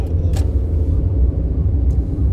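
A car drives along a road on a morning trip, heard as a steady low rumble of road and engine noise with a few brief, faint clicks and no talk.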